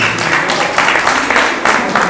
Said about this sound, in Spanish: Un aplauso para la Clara, que tiene las ideas y el conocimiento totalmente claro. Un aplauso para la hermana.